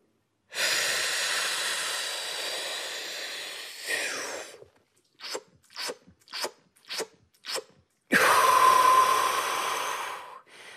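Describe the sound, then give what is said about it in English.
A trained freediver packing breath: a long, steady inhalation, then a quick series of short, sharp gulping sips of air, ending in another long, loud rush of breath. “as a trained freediver and somebody who's, you know, really trying to blow the lid off that spirometer, I would take a breath that sounds like this.”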